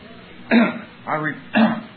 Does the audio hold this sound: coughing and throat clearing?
yes